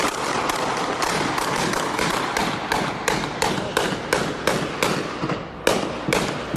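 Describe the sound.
Gunfire during a shooting in Malton, recorded from inside an apartment: many sharp bangs in quick, fairly steady succession over a constant rough roar, loud and with no speech.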